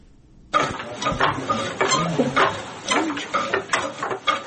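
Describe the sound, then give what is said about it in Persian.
Wooden silk-weaving loom in Zindajan district, Herat, weaving a silk handkerchief: many irregular wooden clacks, knocks and thumps in a busy mechanical rhythm, moderately loud and steady throughout, with no voices. “پشت دستگاه چوبی ابریشم بافی در حال بافندگی دستمال ابریشمی است.”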